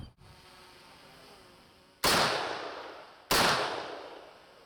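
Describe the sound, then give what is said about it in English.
Two loud assault rifle shots fired at armoured vehicle protective material, a few seconds apart after a quiet stretch, each a sharp crack followed by a slowly decaying tail. “A key part of the process is testing the materials used for protection. This test is simulating an attack using an assault rifle.”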